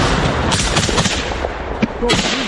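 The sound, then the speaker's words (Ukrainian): Soldiers opening fire at an FPV drone: a few sharp cracks and short bursts of gunfire cut through constant rough, hissing noise. “Неподалік FPV-дрон. Хлопці відкривають вогонь.”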